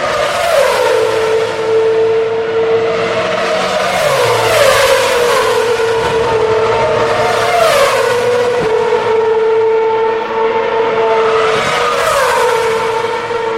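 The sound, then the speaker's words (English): Formula One car engine screaming through the fast uphill Eau Rouge corner, a loud, high-pitched whine that sweeps downward again and again as gears change, continuous throughout. “if you want to hear the sound of an F1 car through Eau Rouge,”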